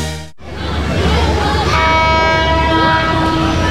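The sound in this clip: A train passing through a railway station sounds a long, sustained horn over a loud, continuous rumble of rolling wheels, with the horn tones holding steady through the second half.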